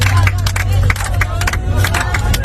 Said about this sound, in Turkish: Uçağın Suudi Arabistan'a inişe geçtiği sırada yolcuların alkış yaptığı anlarda cep telefonu kameralarına yansıdı.